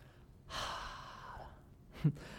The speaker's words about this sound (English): It means to take a deep breath. Come on, let's do it with me.